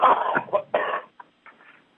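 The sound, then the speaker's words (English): A person coughs a few harsh, throaty times in quick succession, and fainter coughs trail off at the end. “Excuse me. I'm coughing again.”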